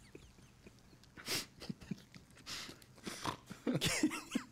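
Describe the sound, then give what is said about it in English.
A man snorts in several short, harsh nasal bursts that sound close to coughing and throat clearing, with a few sharper snorts near the end. “We got him snorting over here.”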